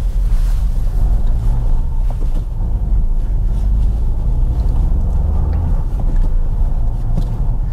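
A Dacia Jogger car drives slowly and carefully over a rough, almost off-road stretch, giving a steady low engine and tyre rumble mixed with buffeting wind noise throughout.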